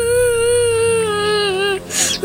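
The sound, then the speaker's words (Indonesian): A child is crying in one long, high, drawn-out wail that holds a fairly steady pitch with slight wavering. It breaks off near the end, and a fresh sob begins just after the break. “Nak, kenapa kau menangis?”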